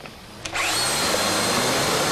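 A power drill with a diamond cutter bites into a truck load fitted with exotic-alloy security seals. After a quiet start and a sharp click, a loud, steady grinding whine kicks in and holds to the end.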